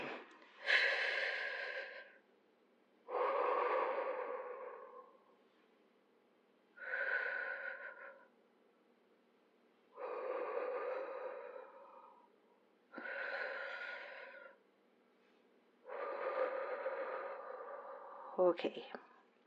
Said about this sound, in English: But I breathe. Okay, breathe.